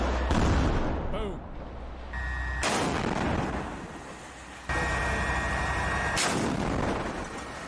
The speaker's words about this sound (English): So if you're asking why they're just continuing to fire in the building, likely they're attempting to keep them pinned down.